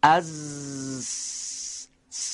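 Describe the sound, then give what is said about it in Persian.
A voice holds a voiceless 's' hiss, the Persian letter sin, after a voiced buzzing 'z' of about a second. The steady hiss is followed by a short pause, then a second hiss begins. “اگر ارتعاش تارهای صوتی رو از حرف ز بگیریم میشه سین. دقت کنید،”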